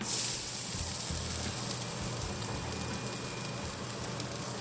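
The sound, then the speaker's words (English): Pork sizzling on a barbecue grill, a continuous crackling hiss of fat frying over a low, steady hum. It stays at an even, moderate level with no talk. “That is the sound of pork on the barbie.”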